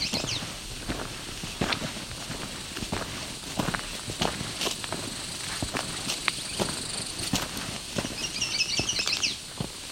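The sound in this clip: Footsteps walk back across open flats dotted with a few trees: many soft, crunching steps fall in an uneven rhythm, fairly faint and with no talk.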